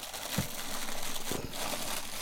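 Steady crinkling and rustling of wrapping material as a drum is unwrapped from a silvery box, a continuous papery crackle with a few louder crunches and no talking.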